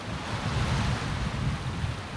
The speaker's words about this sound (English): And I'm standing here looking at the endless water. It looks like it goes on forever. I mean, I know it's a lake, but it feels like I'm back home along the ocean.